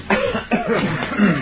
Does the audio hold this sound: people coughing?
yes